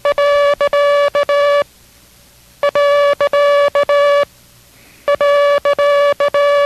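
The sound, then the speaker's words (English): Morse code for the period character plays as a clear mid-pitched tone keyed into short and long beeps. The same pattern sounds three times, with a brief silent pause between each group. “We will now study three new characters. The period, B as in Baker, and J as in Jig. Listen carefully to the sound of each. This is the period.”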